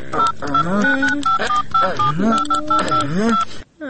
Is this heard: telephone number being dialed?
yes